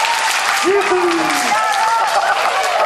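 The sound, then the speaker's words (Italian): Loud, sustained applause at a live show for the songwriter of the songs just performed, a thick, even rush of clapping with a voice talking over it. “un applauso fragoroso per Luigi Gaudio, oh, questo è un applauso,”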